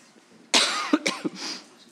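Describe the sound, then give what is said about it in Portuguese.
A dry, irritative cough, believed to be allergic, that has lasted about a month and a half. It comes as a short burst of several harsh coughs with rough breathy tails. “Eu estou a tossir, mas eu já estou há quase um mês e meio, não é Covid, fiz o teste. É mesmo uma tosse irritativa, penso que alérgica.”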